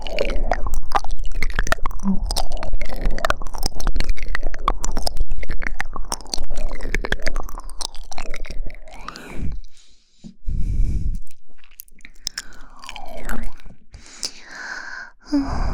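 Someone eating, with many wet, clicky chewing and biting sounds packed closely together, mixed with gasping vocal noises and short pauses.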